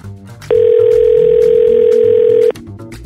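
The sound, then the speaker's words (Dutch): A telephone dial tone as a call to Friesland is placed: one loud, steady, continuous pitched tone lasting about two seconds, alone, with faint background noise before and after. “Ik ga bellen met Friesland.”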